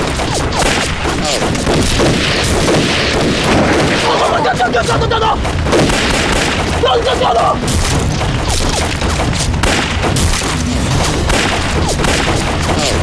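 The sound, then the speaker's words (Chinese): Gunfire exchange in a fog-bound firefight, a dense, unbroken barrage of shots and heavy booms rolling through the whole clip, with voices surfacing briefly amid the din. “那对面火力明显比咱们猛啊，这子弹也不多了。”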